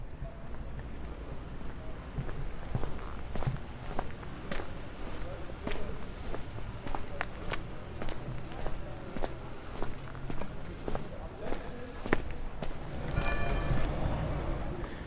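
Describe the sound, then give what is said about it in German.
Footsteps of a walk through the streets of Ulm toward the town hall square: faint, steady clicking steps over a bed of wind noise, even in pace throughout. “spazieren wir mal gemeinsam ein paar Meter vor zum Rathausplatz”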